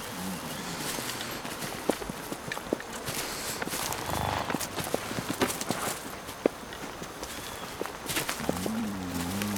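Several people walk slowly in a steady series of soft, irregular footsteps at low level, with a few sharper steps standing out. No one speaks.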